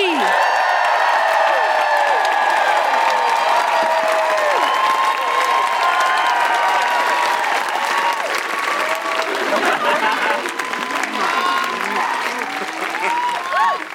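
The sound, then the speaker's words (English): Audience applause and cheering: sustained, dense clapping with whoops and shouts rising over it from a live crowd, loud and steady throughout with no talk. “Please put your hands together and make enormous woohooing noises for Alex and Amy.”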